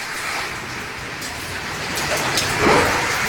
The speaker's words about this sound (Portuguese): Mais chuva. Esse é o som de São Paulo agora.